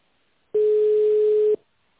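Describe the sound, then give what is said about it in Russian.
A telephone line sounds a single steady mid-pitched tone while a call is being transferred. The tone lasts about one second, loud and alone, with near silence before and after. “Да, я сейчас вас переведу на тендерное дело. Одну минутку.”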